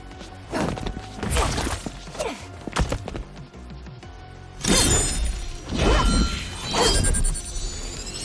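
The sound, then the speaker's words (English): A video game fatality in which Kitana flings her fan blades into a victim and drives them into the skull, heard as a run of sharp slashing whacks and crunching smashes over a loud, dense backdrop. “Kitana flings her fan blades into the victim, leaps, summons the fans back, and drives them into their skull. Finish him.”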